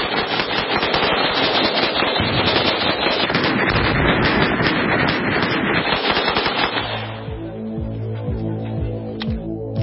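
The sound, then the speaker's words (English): Gunshots fired at a Tannerite explosive target ring out as loud, dense, rapid volleys for about seven seconds. They then break off into a quieter, steady tonal hum with a few sparse shots. “flag around it, and sticking a clown wig on top of it with some Tannerite and blowing it up. And the results were somewhat spectacular. All right. Ready? Safety off. Go.”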